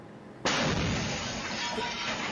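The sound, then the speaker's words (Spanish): A hand grenade explodes on a street in one sudden, loud blast, followed by a sustained, roaring rumble that stays heavy and broad for about two seconds. “Explotó la granada, explotó.”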